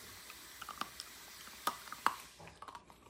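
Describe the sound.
Faint eating sounds: soft, irregular crunches and clicks of chewing, scattered and quiet, with a few sharper bites standing out among low background hiss.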